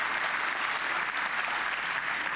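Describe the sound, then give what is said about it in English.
Audience applause for a speaker being welcomed at a tech conference, a steady, even clapping that fills the whole clip at a moderate level without any break. “Well, I would say clap, applause, applause, applause.”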